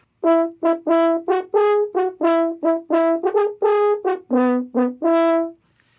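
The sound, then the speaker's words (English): A valveless natural horn pitched in E plays a short melodic phrase of many detached, sustained notes at moderate loudness, each note rich and brassy with the pitch shifting between notes. “So maybe you had an E horn, it was pitched on an E like this.”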